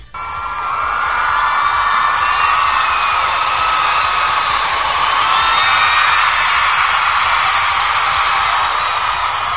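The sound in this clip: A crowd cheers and whoops in a loud, steady ovation that holds for the whole stretch without letting up.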